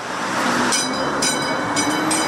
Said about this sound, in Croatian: Replika prvog električnog tramvaja iz 1895. godine ponovo je na šinama grada Sarajeva. Ušla sam u ovaj tramvaj